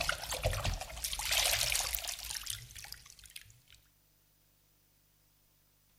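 A caiman diving into water: a wet splash and gurgling churn that swells, then trails off into watery dribbles and falls to near silence about halfway through.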